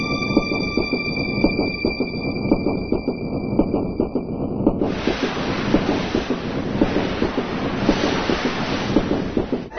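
A train travelling on rails toward Brighton, heard from inside: a steady, loud rumbling roar with constant rattling beats. A thin high whine runs under it and stops about halfway through.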